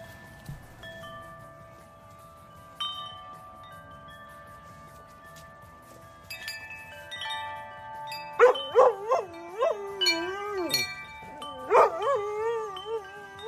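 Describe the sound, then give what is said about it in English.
Wind chimes rung by a playing puppy: a few clear metallic tones ring and sustain softly, then a busier cluster of chime strikes mixes with wavering high-pitched puppy whines and yips. “we're going to watch a puppy playing in some chimes”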